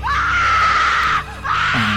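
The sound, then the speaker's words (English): A loud shriek in the morning, held at a steady, piercing pitch for over a second, breaks off briefly, then a second shriek returns and drops into a lower, wailing tone. “And you are awoken in the morning by an actual shriek,”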